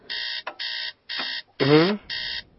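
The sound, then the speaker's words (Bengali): An alarm clock rings at two in the night with a harsh electronic beep in repeated short bursts separated by brief gaps, and a voice cuts in partway through. “এই ঘড়িতে একটু অন্য ঘরে রেখে এসো না, কেমন বাজে একটা শব্দ, ঠিক রাত দুটোর সময় ঘুমটা ভেঙে যায়।”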